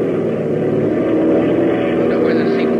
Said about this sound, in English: Brother, we sure are landing hot. We'll be all right. We'll take a long rollout.